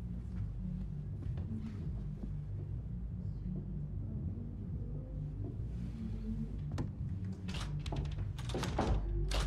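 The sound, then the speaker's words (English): Thunks and knocks from a basement door being struggled with and opened, with a few sharp clunks toward the end over a steady low rumble. “She struggles to open the door, then slowly opens it.”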